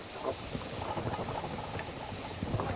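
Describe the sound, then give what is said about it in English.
A pan sizzles as food is sautéed, a steady, dense hiss with faint crackles throughout and no talking. “while you're sauteing that, I'm going to get a little bit more mirepoix here”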